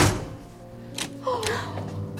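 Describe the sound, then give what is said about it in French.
A door being closed inside a house: a couple of dull, muffled thuds over a low, continuous background hum. “Asseyez-vous et laissez-moi fermer la porte.”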